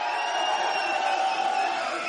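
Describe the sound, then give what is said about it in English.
A big crowd gathers at an outdoor Cinco de Mayo event by the 60 freeway's Crossroads Parkway exit. A dense, steady murmur of many voices holds at an even level throughout, with no single voice standing out. “There we are. You can't miss us. It's a big crowd. It's a big goddamn crowd is what it is.”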